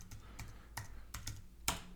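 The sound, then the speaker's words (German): Keyboard keys clack as someone types a quick reply message, with several irregular, sharp taps across two seconds and the last one a little louder than the rest. The typing is fairly quiet and no one speaks. “John schreibt, Moment, muss ihm kurz antworten.”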